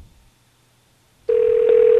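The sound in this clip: A telephone busy signal sounds on a call to a product-guessing contest line, a loud, steady electronic tone that cuts in abruptly after near silence and holds to the end.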